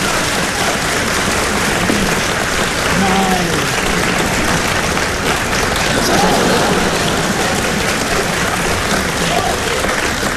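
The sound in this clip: Audience applause greets performers as they come on stage at a live comic show, a dense, steady wash of clapping that holds at an even loudness throughout.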